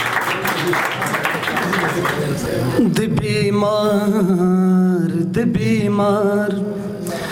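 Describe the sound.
Audience clapping for a poet at a Pashto poetry gathering: dense, steady applause fills the first few seconds, then a sustained voice carries on over the fading crowd noise.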